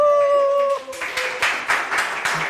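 A live audience at a comics festival event in Delémont's Musée jurassien d'art et d'histoire lets out a long sustained whoop, then breaks into several bursts of clapping and cheering.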